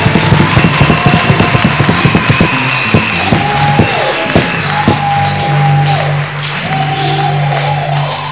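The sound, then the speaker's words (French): Congregation clapping for Jesus during a bilingual French and English church service: many rhythmic claps fill the first few seconds, then thin out beneath sustained tones. “Acclamons Jésus. Let's clap for Jesus.”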